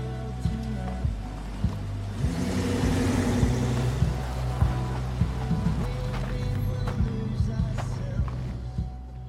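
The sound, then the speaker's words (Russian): A car drives into a yard, its low engine rumble running throughout as a wash of tyre noise swells and fades, with scattered sharp ticks and crunches. “Машина приехала во двор.”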